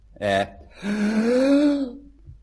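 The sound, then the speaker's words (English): A person takes a deep breath: a short, sharp gasp, then a longer, voiced, strained inhale lasting about a second. “I'll take a deep breath, but your counting better be pretty quick.”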